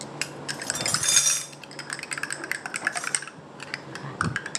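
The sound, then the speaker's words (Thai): Light clinking and tapping from stirring a mixture until it dissolves without heat, then pouring it. A quick, uneven series of small clicks runs throughout, with a brief, louder noisy burst early on. “คนให้ตัวนี้ละลายเข้ากันโดยที่ไม่ต้องใช้ความร้อนนะคะแล้วอาจารย์ก็เทลงตรงนี้เลยค่ะ อันนี้ต้องคนไหม ใช่ค่ะคนแล้วก็เท”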